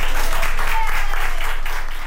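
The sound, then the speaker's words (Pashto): Doctors and nurses in Madrid applaud a woman over a hundred years old who has recovered from coronavirus, with dense, steady clapping that stays fairly loud for the whole stretch. “د اسپانیا په پلاسمینا مادرید کې ډاکټرانو او نرسانو هغې مېرمنې ته چکچکی کوي چې تر سلو کلونو تیره ده او له کورونا رغېدلې ده.”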